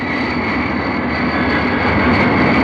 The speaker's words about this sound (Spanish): El avión cruza a baja altura sobre las rocas